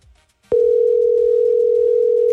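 A steady, mid-pitched telephone line tone starts abruptly and holds unbroken to the end while a call goes unanswered.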